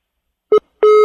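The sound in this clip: Telephone line tones after a live phone interview drops on a bad connection: two steady, same-pitched beeps, a short one then a longer one, heard alone with no talk.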